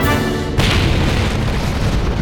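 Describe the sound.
Explosion destroying the spaceship Liberator, a drama sound effect. A humming tonal drone is cut off by a sudden loud boom just after half a second, followed by a sustained heavy roaring rumble.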